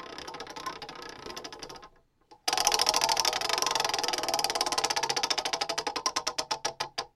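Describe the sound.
A spinning wheel clicks, with a dense rattle that stops briefly before loud, rapid ticks resume and gradually slow until they are widely spaced and come to a halt.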